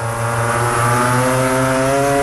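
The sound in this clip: MotoGP motorcycles racing at the Portimão circuit during the final laps of the first-ever sprint race produce a loud, steady, high-pitched engine whine with strong harmonics that holds its pitch throughout.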